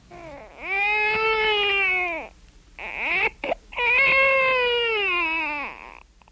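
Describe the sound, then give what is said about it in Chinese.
A baby cries loudly in two long, wavering, high-pitched wails with a brief catching sob between them. There is no talk. “他哭声这么大，恐怕不能够久藏这孩子了。”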